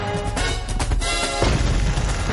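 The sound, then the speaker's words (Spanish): Heavy crashing and rumbling as an animated elephant smashes through an earth embankment in a prehistoric setting, a loud, dense burst of impacts that continues without pause for the whole clip. “El elefante rompe un terraplén y corre perseguido por el felino que tira dentelladas a Tong.”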